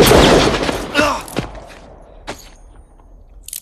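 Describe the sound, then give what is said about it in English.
Gunshot sound effects in a radio western drama, part of a Tucson gunfight scene: a loud burst at the start, then a few sharp cracks that grow fainter and more spaced out. “Herod makes him dance. The Terror of Tucson.”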